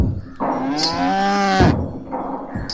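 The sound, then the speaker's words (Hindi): A cow with small bells tied around its neck lets out one long, loud, tonal moo lasting about a second and a half, with no talk over it. “अरे ये तो एक गाय है और इसके गले में बंधे ये घुंघरू और ये कनस्तर जिसमें इसका चारा है।”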